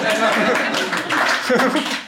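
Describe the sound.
Audience clapping with some laughter during a German talk about a business owner's loyal staff; brief, lively applause mixed with chuckles and crowd voices.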